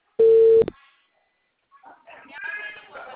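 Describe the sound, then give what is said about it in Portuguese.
A telephone call being dialled: one loud, steady electronic phone tone that ends in a click, then near-silence before muffled voices rise faintly. “Tô tentando ligar pra minha cliente.”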